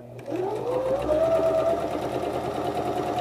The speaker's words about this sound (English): You're going to line up the edge of the fabric with the edge of the presser foot like this. And we're just gonna start stitching.